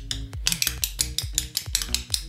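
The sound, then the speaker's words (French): Spoons are played as a percussion instrument, one of them sounding out of tune. Many quick metallic clacks fall in a steady, driving rhythm, with no talk. “Ça marche presque, dis donc. Le problème, il y a une cuillère qui est pas bonne. il en faudrait deux comme celle-ci et celle-ci. Il y a une cuillère qui sonne faux”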